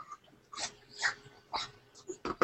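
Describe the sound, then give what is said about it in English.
A hungry female dog whimpering for her dinner: a few short, faint whines and snuffly breaths separated by brief pauses. “The dog has decided that she is starving and needs feeding.”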